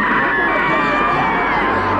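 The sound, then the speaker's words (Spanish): A cinema audience at a horror film screening screams together in a dense, sustained wash of high shrieks and yells that stays loud and unbroken throughout. “¡Griten! ¡Griten! ¡Sigan gritando! ¡Griten por su vida!”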